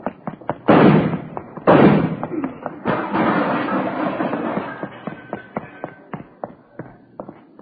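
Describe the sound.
Gunshots fired during a dramatized police standoff at a wall, heard as two loud, sharp bangs near the start, followed by a run of fainter clicks and knocks.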